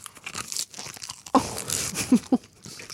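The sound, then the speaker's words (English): Plain, crunchy salad leaves being bitten and chewed, giving a few sharp, crisp crunches with softer tearing and rustling in between. “Now we're just eating plain leaves. Mmm, that's tasty, though.”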